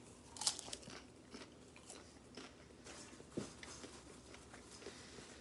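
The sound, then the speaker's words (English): Crunching on Nostalgia Electronic popcorn during a taste test: faint chewing with a few sharper crisp bites scattered through. “All right, how does it taste? Nostalgia Electronic popcorn. Here we go, taste test.”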